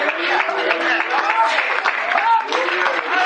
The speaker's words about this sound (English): Do you know what we're doing? We're clapping our hands.